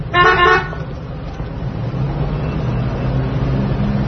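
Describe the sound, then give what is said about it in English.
One short, loud blare of a car horn at the start, then the low, steady rumble of the car's engine continues alone to the end. “Honk the horn over your eye!”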